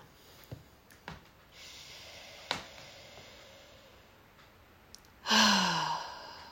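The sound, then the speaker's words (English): A deep breath: faint breathing and a few soft clicks lead into a loud, long, breathy exhale like a heavy sigh near the end. “Let's take a deep breath.”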